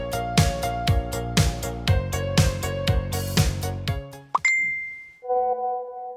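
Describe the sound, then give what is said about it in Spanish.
Message notification chime on a phone: a bright, sharp ding cuts in as rhythmic music stops, then a softer sustained two-tone chime rings out alone. “Me llegó un mensaje”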